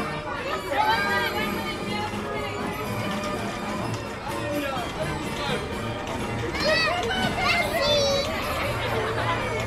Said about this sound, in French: c'est le manège auquel on est là, le carrousel qui tourne à plein régime. Là, il y a plein d'enfants qui sont dessus.